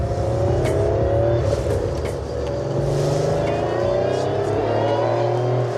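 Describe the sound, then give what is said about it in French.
A Porsche engine revs loudly and continuously, a dense, steady low-to-mid drone that dips briefly around the middle before building again, with no voices over it. “ça c'est le pur son Porsche, quoi. C'est le pur son Porsche.”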